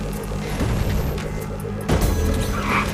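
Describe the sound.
A car crashing and flipping upside down in a video game: a loud, droning engine hum runs throughout, broken by one heavy thump of impact partway through.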